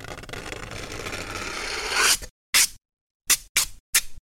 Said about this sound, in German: Ihr reißt also ein Stück Alupapier ab und zieht die Kante langsam über die Pappe. Das hört sich dann so an.